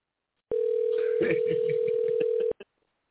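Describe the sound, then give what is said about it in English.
A steady telephone dial tone while a number is dialed. The tone holds for about two seconds over faint, muffled sounds, then stops, followed by a brief click. “Let's see if she picks up for us. Hope I'm dialing the right number.”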